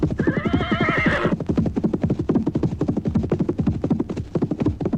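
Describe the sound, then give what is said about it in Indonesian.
A horse whinnies briefly at the start, then many hoof beats clip-clop in a quick, steady rhythm from horses pulling a carriage driven by a coachman. “Anak-anak, berkat ketangkasan Pak Kusir, kuda-kuda itu mulai berlari lebih pelan.”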